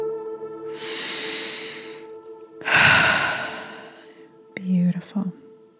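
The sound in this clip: Slow, deep breathing during a guided breathwork exercise: two long, airy breaths, each lasting about a second, then a brief soft voiced sound near the end.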